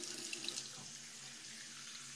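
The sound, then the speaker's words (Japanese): Tap water running steadily into a sink while someone washes their face, a soft, continuous hiss and splash at low volume with no pauses. “顔を洗います、今から。”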